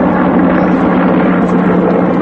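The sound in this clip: A loud, steady engine roar from an aircraft landing extra troops during an armed special-forces operation, a dense, unbroken rumble with no pauses.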